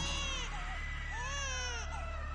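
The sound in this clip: Wavering, high-pitched wails of a baby crying as if hungry for milk: several drawn-out cries that rise and fall in pitch over a steady low hum, with no one talking.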